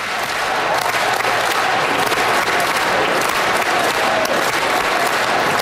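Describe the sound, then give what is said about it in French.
Members of Parliament applaud Olympic and Paralympic athletes from Milan-Cortina in the House of Commons. The clapping is loud, dense and sustained, holding at an even level from start to finish. “Les sportifs ont défilé dans la Chambre des communes sous un tonnerre d'applaudissements des élus.”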